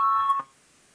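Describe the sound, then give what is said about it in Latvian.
A parliament voting bell signal gives a single bright, buzzing electric tone lasting under half a second, then cuts off sharply into near silence. “Lūdzu zvanu, balsosim par 59.”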